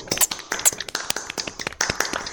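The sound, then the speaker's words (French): Scattered hands clapping from a small group celebrating a game winner: many sharp, irregular claps in uneven rhythm that are crisp and moderately loud, with no voices. “Ah, j'ai mal aux mains tellement j'en applaudis.”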